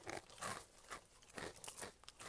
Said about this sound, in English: Sorry. I'm eating Cheerios.